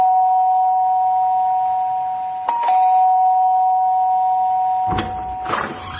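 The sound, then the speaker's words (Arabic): A doorbell rings as a steady, continuous buzzing tone held through nearly the whole clip. It breaks off briefly twice, and some rustling noise comes in near the end. “فين الجرس؟ اهو.”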